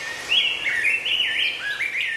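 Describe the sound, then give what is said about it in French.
Birds chirp and sing in the morning, a quick run of bright, high whistled notes that bend up and down in a continuous warbling phrase. “je voulais vous donner des oiseaux au réveil. Ah, c'est si bon, se réveiller avec des gazouilles, non?”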